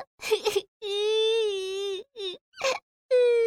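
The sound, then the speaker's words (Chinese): A child cries in wailing, sobbing bursts: a few short whimpers, then a long drawn-out high wail, followed by several brief sobs and another rising cry. “哎呀，你别哭呀”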